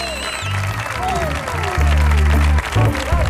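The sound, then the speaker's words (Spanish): A studio audience applauds and cheers loudly and without pause, with sliding whoops rising over the dense clapping, which grows louder toward the middle. “Hoy tenemos un publicazo que suena así de potente. Ve cómo suena este público de hoy.”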